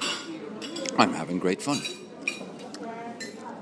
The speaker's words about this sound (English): Yeah, well, this is the sound of breakfast.